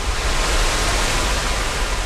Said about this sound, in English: The new flood wall blocks her view, but you can hear the water racing behind us.